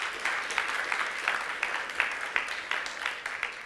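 Audience applause at a church conference, dense continuous clapping with small rhythmic surges, steady in level and not very loud.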